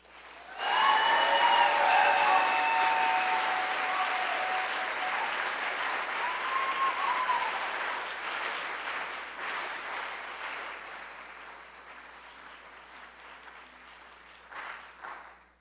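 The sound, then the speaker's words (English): Audience applause welcomes a speaker onto the stage at a PechaKucha Night event in Seattle. The clapping swells quickly, holds dense and steady for several seconds, then gradually thins and tapers off. “Can you please give a warm round of welcome to Ijeoma Oluwo?”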